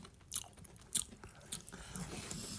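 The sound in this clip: Crunchy bites into a thick Japanese Pocky-like vanilla breadstick snack: three sharp, crisp snaps spaced apart, followed by softer, continuous chewing and crunching.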